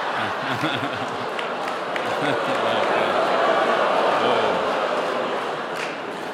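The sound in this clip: A packed audience at a live show in the Twin Cities chants "run, Michelle, run" in unison: a loud, dense roar of many voices with a rhythmic pulse that holds steady for about six seconds and eases slightly at the end.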